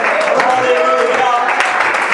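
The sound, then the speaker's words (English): Church audience clapping their hands, a dense, continuous wash of claps held at an even, fairly loud level throughout, with voices mixed in. “And would you clap your hands unto the Lord? And you can shout hallelujah. Come on, let's shout, let's just glorify.”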